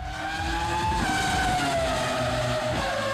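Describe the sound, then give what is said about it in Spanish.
Loud, steady electric motor whine from a Ford Super Mustang Mach-E electric race car driven by Romain Dumas, climbing Pikes Peak in the International Hill Climb. The whine's pitch slides gradually lower over the run. “Un Ford Super Mustang Mach-E a los mandos del piloto francés Romain Dumas se proclamó campeón absoluto de la edición número 104 de Pikes Peak International High Climb al trepar, escuchen, los 19,8 kilómetros”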